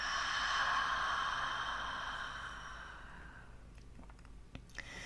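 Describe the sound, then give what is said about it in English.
A slow, deep breath exhaled during a guided breathing exercise: a soft, airy rush that fades gradually over about three seconds, then near quiet with a few faint clicks. “Another one, inhale and exhale.”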